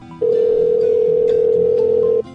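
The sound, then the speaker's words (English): A telephone rings on a prank call line: a single steady electronic tone, loud and alone, lasting about two seconds. “More ringing phones.”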